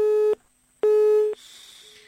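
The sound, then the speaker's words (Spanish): A telephone busy tone after a dropped call gives two loud, steady, mid-pitched beeps separated by a short silence, followed by a fainter, thinner tone. “Bien, se cortó la llamada.”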